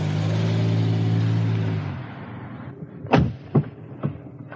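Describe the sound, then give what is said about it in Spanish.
A car reversing away from a house gate and driving off, its steady engine hum holding for a couple of seconds and then fading away. Three sharp, brief bangs follow at short intervals. “Ella da marcha atrás y se aleja.”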